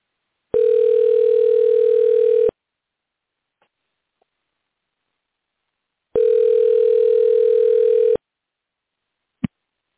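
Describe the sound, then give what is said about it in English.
Telephone ring tone while calling a guest: two long, steady tone bursts of about two seconds each, separated by a silent gap, with a brief click near the end. “dial him up”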